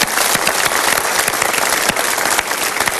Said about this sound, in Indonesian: Untuk itu kita tepuk tangan dulu.